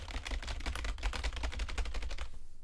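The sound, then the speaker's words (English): Mechanical keyboard typing: a dense, fast run of many loud clacking keystrokes that goes on steadily and then stops abruptly. “the fucker with the mechanical keyboard wants to brag about it and doesn't want to use push to talk, so half the fucking noise in the call is,”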